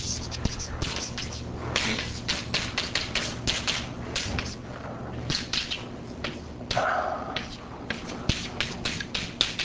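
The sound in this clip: An equation is written on a board during a physics lecture, a long series of quick taps and short scratchy strokes in an uneven rhythm.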